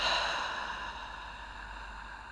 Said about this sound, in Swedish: Vi andas in och släpper långsamt ut luften genom munnen.